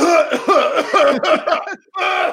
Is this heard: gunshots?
no

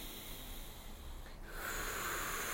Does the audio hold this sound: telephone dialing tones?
no

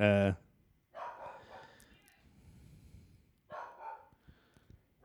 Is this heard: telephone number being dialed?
no

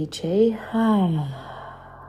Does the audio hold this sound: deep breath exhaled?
yes

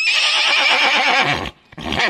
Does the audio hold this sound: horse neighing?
yes

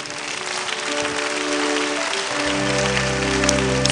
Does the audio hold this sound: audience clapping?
yes

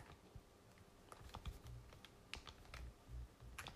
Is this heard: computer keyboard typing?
yes

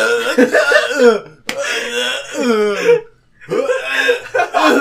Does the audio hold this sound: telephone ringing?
no

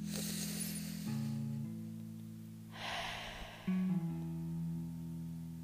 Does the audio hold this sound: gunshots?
no

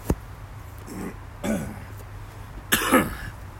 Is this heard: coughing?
yes

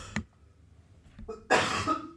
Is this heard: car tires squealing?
no

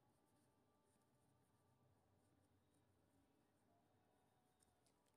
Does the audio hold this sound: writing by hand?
yes

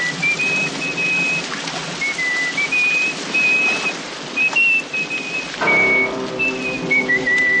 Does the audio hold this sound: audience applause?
no

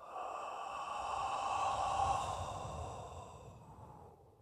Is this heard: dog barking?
no

